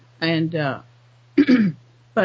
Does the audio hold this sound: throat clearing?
yes